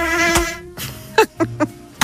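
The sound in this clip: Mosquito buzzing: a thin, high whining hum with steady harmonics, then a few short buzzing bursts, fairly loud, with no talk.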